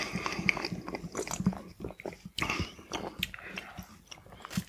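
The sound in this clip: Mouth and swallowing sounds of someone sipping a dark, clear craft beer with a grapefruit aroma: many small wet clicks, gulps and crunchy mouth noises in an uneven run, fairly faint, with no talk.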